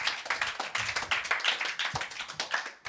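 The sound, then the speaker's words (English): Audience clapping for a comedian taking the stage at a stand-up show, a brisk, uneven patter of individual claps that continues throughout at a fairly even level. “That was too much applause.”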